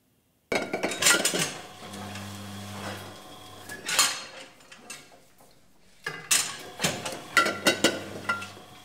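Glasses clinking at a winery on an old manor estate: two bursts of bright, clattering glassy clinks with a short lull between them, and a steady low hum in the background at times.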